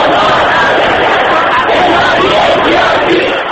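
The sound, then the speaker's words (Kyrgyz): Loud crowd of protesters in Tehran, supporters of opposition candidate Mir Hossein Mousavi, shouting slogans demanding the release of prisoners; a dense, continuous roar of many voices at constant high volume. “Кийин алар түрмөдөгүлөрдү бошоткула деп кыйкырып жатышты.”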